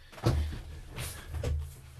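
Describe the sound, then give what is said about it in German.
A studio door is opened with a few soft, faint knocks and rattles spread over a couple of seconds. “ich habe kurz aufstehen müssen und die Tür aufmachen bei mir im Studio, weil da war es auch zu heiß.”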